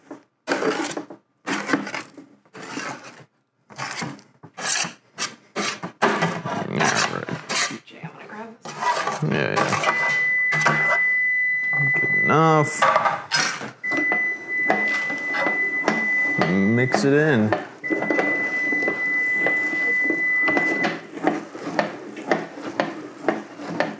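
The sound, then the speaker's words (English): A meat mixer churns ground meat, giving rough, continuous grinding and scraping with squeaky, tonal mechanical whines that come and go. Voices are heard near the start. “Normally this is a by hand sort of operation and it gets a little messy. The meat mixer, nice touch.”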